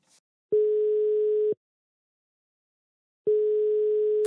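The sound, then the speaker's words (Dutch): Telephone line tone heard while placing a call: two steady, mid-pitched beeps of about one second each, separated by a long silent gap. No voices. “We gaan deze Q&A afsluiten en dan gaan we even bellen met Sam Muller.”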